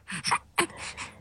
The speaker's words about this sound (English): A mum trying to distract her baby as he struggles with his breathing.